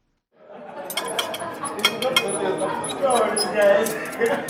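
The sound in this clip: Cutlery and dishes clink as a diner eats a coil of spiced beef and pork sausage in a Johannesburg restaurant. Many sharp light clinks run steadily under a murmur of voices.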